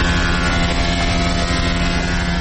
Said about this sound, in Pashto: دا هم د نجارۍ یوه فابریکه ده چې پکې په ماشین لرګي اره کیږي او د دروازو جوړولو دپاره یې برابروي.